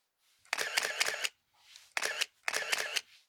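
Camera shutter clicks as photos are taken: a rapid series of sharp, bright mechanical snaps in several close bursts, with short pauses between groups and no speech.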